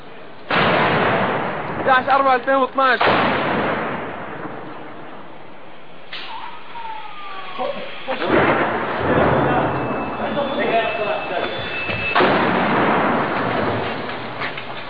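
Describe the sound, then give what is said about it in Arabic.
Heavy artillery shelling hits Homs in 2012, with several sudden, loud blasts and long rumbling roars breaking over an ongoing bombardment while people talk between the impacts. “نحن تحت القصف الآن. 11/4/2012 قصف عنيف تجدد علينا اليوم.”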